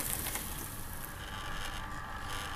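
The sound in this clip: A paper shredder shredding a driving licence gives off a continuous, fairly loud whirring grind with a broad noisy texture, sustained evenly throughout without pauses or voices.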